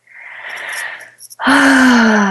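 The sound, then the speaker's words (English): A big deep breath taken during a finger-tapping exercise: a long, airy inhale builds and fades, then after a short pause comes a loud voiced exhale like a sigh. “Big deep breath.”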